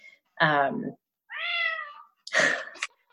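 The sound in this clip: A cat meows three times in short succession, each call clear and moderately loud, with brief silent gaps between them and no talking.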